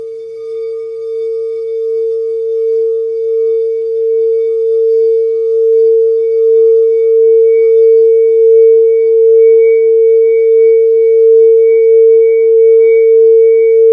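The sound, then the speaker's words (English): Sustained ringing tone of a smoky quartz crystal singing bowl for the third eye chakra, marked with a Metatron's cube, holding one steady pitch with faint overtones and a gentle pulsing swell in loudness, with no talk. “I've got several third eye chakra bowls. One of them is made of smoky quartz.”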